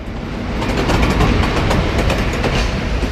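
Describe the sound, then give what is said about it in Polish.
Train 41203 departing from track 35 at platform 7 of a station, a loud, steady rumbling roar with faint rhythmic clacking running throughout, no voices. “41203 odjazd. No to czas ruszać w drogę. Na razie jeszcze po staremu. Z toru 35 przy peronie 7.”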